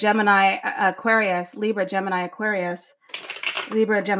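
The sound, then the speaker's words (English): Tarot cards being shuffled, a short papery riffle that comes through mostly in a pause, with talking before and after it. “Let me give it a little shuffle here.”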